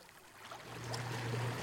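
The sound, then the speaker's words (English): Sea waves at the shore as the high tide comes in, a broad rushing wash that swells louder over its short span, with a low steady hum beneath. “The high tide is coming in. I think I've napped on the rock. I had to move away from the rock, which is now submerged in water, where I had been sitting.”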